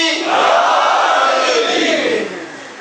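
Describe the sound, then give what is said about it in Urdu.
A crowd at an imambargah gathering chants the religious slogan Naara-e-Haidri in unison. Many voices join in one loud, sustained roar that swells quickly, holds steady and then tapers off. “اب دیکھیں پھر نعرے لگے، نعرہ حیدری. ایک دفعہ لگا، ایک دفعہ پھر لگائیے، نعرہ حیدری.”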